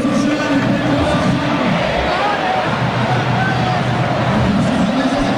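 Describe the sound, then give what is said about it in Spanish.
Dense hubbub of Argentine spectators filling a stadium in Rosario before a South American Games football final. Many overlapping voices merge into a steady, unbroken roar that runs throughout. “Escuchá al público argentino esperando por la final.”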